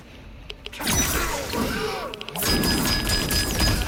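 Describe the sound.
A combo of hits in a fighting video game produces a rapid series of heavy smashes, whacks and thuds mixed with sweeping effects. The hits arrive in two dense bursts separated by a brief lull.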